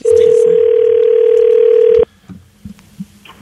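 A steady, loud telephone dialling tone holds one even pitch for about two seconds before cutting off abruptly, leaving a few faint clicks and handling noises.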